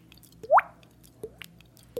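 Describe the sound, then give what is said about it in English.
A man imitates a water drip by tapping his cheek while blowing out water, producing three hollow, wet plops, each rising quickly in pitch. The first is the loudest, and the other two come at even intervals. “old man named Snipes taught me how to do a water drip. You were just tapping your cheek. Yeah. And it's tapping on my cheek, and I'm blowing the water out as if you had just brushed your teeth and it's spitting, go, and then I put them together.”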